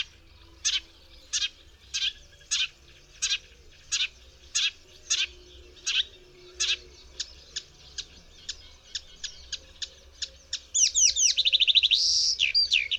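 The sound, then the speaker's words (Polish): A songbird mimicking other birds, including the tree sparrow and white wagtail, gives a long run of short, sharp, evenly spaced chirps, then breaks into a faster, denser twittering phrase at the end. “Reszta piosenki składa się przede wszystkim z zapożyczeń głosów innych ptaków. Ten osobnik naśladuje m.in. mazurka,”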